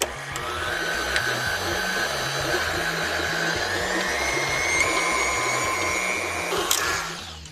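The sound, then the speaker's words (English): A stand mixer with a paddle attachment creaming butter and sugar: a continuous motor whine over a rhythmic low thumping, holding steady for about seven seconds and easing off at the end. “But just going to cream this until light and fluffy using a paddle attachment. It's going to take about 3 to 5 minutes depending on how warm your kitchen is.”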